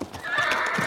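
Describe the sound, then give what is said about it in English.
A horse neighs in one short, strained whinny that lasts under a second. “That is the sound of a horse that's happy to be home.”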